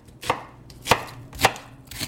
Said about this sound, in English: we're going to add a small onion, just chopped coarsely.